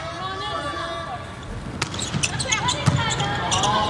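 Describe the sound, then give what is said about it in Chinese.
Volleyball bounced against the court by an Iranian player before serving in an Iran versus Indonesia match, a few sharp thumps over steady crowd hubbub and a commentator's voice. “伊朗队的二号曼祖里准备去发球，”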